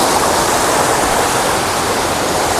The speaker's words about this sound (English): oh, there's actually two waterfalls, which is nice.